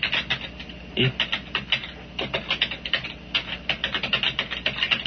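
Fingers type an email address on a computer keyboard, producing many quick, irregular plastic key clicks in bursts with brief pauses. The clicks are fairly soft and there is no talking.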